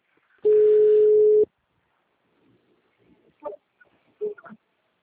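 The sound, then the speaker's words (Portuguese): A telephone ringback tone plays as a call is placed again after hanging up: one loud, steady mid-pitched tone of about a second, followed by quiet and a few faint, brief sounds. “Agora tô chamando. Eu desliguei e liguei de novo.”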